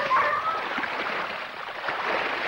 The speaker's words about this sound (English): The dogs round a bend, leaping and stretching as they splash through the pond.